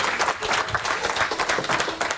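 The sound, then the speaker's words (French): An audience claps after a second live music performance, producing dense, continuous applause with a lively, even rhythm from start to finish. “Encore des applaudissements pour ce deuxième live de Divaphone.”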